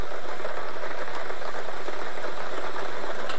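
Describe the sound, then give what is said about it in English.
Numbered lottery balls whirl and rattle inside a draw machine during a daily lottery game, a dense, steady, loud churning noise that holds without pause throughout, with no voices over it. “Let's get these balls spinning.”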